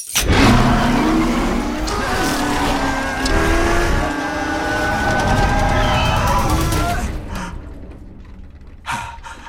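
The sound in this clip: A car engine starts and revs loudly, its droning harmonic tone wavering up and down for about seven seconds before dying away. A short separate sound follows near the end.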